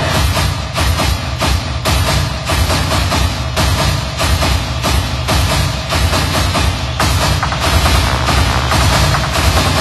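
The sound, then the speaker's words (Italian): Drum beats in a loud, dense, steady rhythm of many rapid strikes that continue without a break, with no voices. “Fate però attenzione ai colpi del tamburo.”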